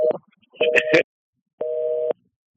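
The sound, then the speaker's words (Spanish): A telephone busy tone follows a dropped call: a couple of short, choppy tone bursts, then one clean, steady low beep lasting about half a second, with silence between. “Ay, se cayó la llamada de Helen, creo.”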